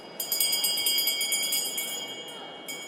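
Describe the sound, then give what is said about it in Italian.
Small handbell rung by the senior member to open the first session of a new legislature in the National Council chamber: rapid, continuous, high-pitched jingling for about two seconds, then a brief renewed ring. “Alle 14.30, nella sala del Consiglio nazionale, la campanella dà inizio alla 51esima legislatura.”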